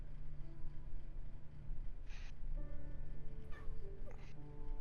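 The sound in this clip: A cat meows a few times, with short, whiny calls in the second half, over a steady low background hum.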